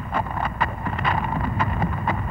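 Horse hooves clip-clop in an even rhythm while riding, with sharp knocks repeating at regular intervals over a low, steady background.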